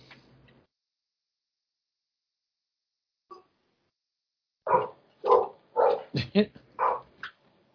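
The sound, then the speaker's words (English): A female dog barks in several sharp, quick bursts clustered close together after a long quiet stretch. “That's my dad's dog. He's babysitting her tonight.”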